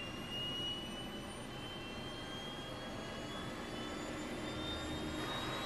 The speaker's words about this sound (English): the aircraft readies to leave Los Angeles for Mexico